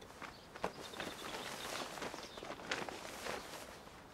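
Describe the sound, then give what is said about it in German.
Soft footsteps of someone sneaking out of a tent, many quiet, irregular steps over a steady hiss, with a few slightly sharper footfalls. “Und deshalb schleicht er heimlich aus dem Zelt und grinst dabei so dreckig wie die versammelte Panzerknackerbande.”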